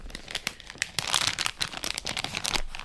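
The crinkly plastic wrapper of a mixed-berry jelly snack is pulled and twisted as someone struggles to tear it open, giving a busy, uneven run of crackling rustles with no speech.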